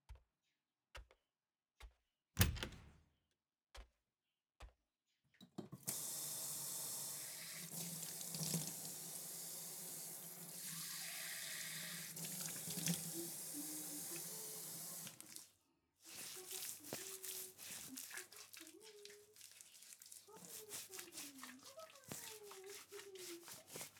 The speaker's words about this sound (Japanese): 顔洗っておいで。